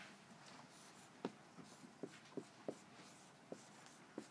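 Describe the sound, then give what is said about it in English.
Writing on a board during a lecture, heard as very faint, short scratching strokes and taps that come in a loose series of several marks. “your actions, I'll just write that up there.”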